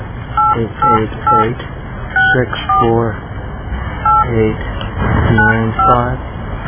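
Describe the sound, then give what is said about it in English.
Telephone keypad tones dialing a toll-free number: a quick series of short, evenly spaced beeps with a thin, band-limited phone-line sound, and a voice present at times. “We're going to dial this one more time.”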